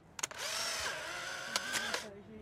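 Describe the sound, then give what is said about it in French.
Polaroid instant camera ejecting a photo just after the flash fires: a few quick mechanical clicks, then a steady whirring motor with a tonal whine that runs under two seconds and cuts off abruptly. “Alors voilà, la photo est sortie. Il faut vite la cacher dans le noir.”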